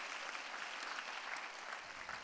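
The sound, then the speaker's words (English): An audience at a skincare product presentation applauds with steady, dense clapping that stays fairly faint and even throughout. “So please give a big round of applause to our Absolute Cell Active.”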